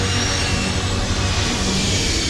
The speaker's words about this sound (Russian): Самолет оторвался от земли и поднялся в небо.